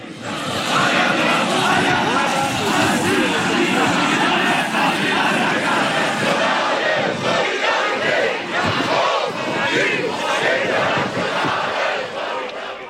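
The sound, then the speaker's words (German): A protest crowd in Erfurt chants and shouts loudly and without pause, a dense wall of massed voices throughout. “Das war ein Rückblick auf die widersetzten Proteste in Erfurt.”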